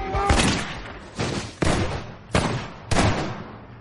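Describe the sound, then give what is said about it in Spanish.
Gunshots in a field during a crime thriller film scene of a shot to the head: five loud, sharp bangs at irregular intervals, each with a short decaying tail. “En un campo, le disparan en la cabeza.”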